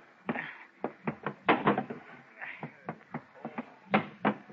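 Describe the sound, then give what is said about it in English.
Sharp wooden knocks and clunks sound as the cabin hatch on a boat is opened. Many short, loud raps come in an irregular rhythm with no talk over them. “open the hatch to the cabin”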